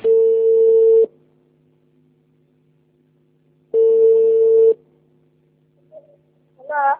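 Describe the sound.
A telephone call is being connected: two steady one-second ringback tones, separated by a few seconds of near silence. A brief faint sound follows, and a voice begins right at the end.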